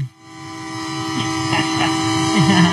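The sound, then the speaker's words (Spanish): A train sounding its horn, a loud, steady droning chord of layered tones held unbroken for the whole few seconds, with faint low murmuring underneath. “Deja que suene el tren”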